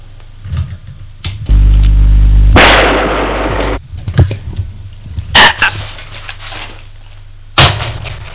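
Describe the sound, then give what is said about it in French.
A revolver gunshot gives a loud, sharp burst that rings briefly, with a few shorter sharp knocks scattered before and after. “Elle a tiré.”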